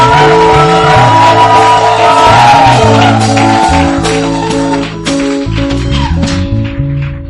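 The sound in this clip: Church audience cheering: loud, continuous shouts and whoops from many voices over sustained tonal sounds, holding steady throughout.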